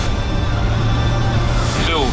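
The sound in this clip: A range-extended car with a depleted battery accelerates at full throttle from about 80 km/h, giving a loud, steady roar of engine and road noise, with a voice speaking over it.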